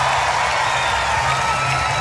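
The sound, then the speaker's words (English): Cheering and applause from a large concert crowd in Europe, a loud, dense, steady roar of clapping and voices that holds level throughout. “Wow, I think this is the biggest, it's the biggest crowd we've ever had in Europe.”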